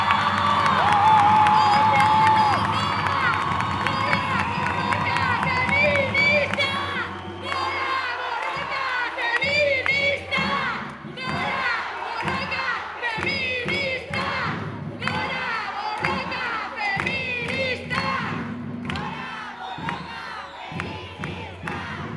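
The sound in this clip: A large crowd of demonstrators shouts at a feminist International Women's Day march in Bilbao in 2022: loud, continuous chanting and cries from many voices, with cheering, sustained throughout.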